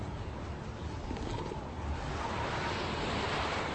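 Wind blowing outdoors, a steady rushing roar of noise without breaks, growing slightly louder in the second half.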